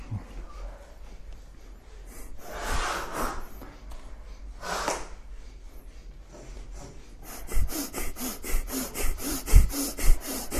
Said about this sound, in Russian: очень сильно, мощно дышим. Поехали. Подключаем те точки, которые намазали. Дышим, дышим, дышим.